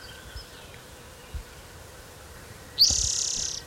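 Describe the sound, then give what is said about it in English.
A warbler sings one high, rapid, buzzy trill near the end, starting sharply and holding steady for under a second. Before it comes a quiet stretch with a couple of faint low thumps. “National Warbler singing.”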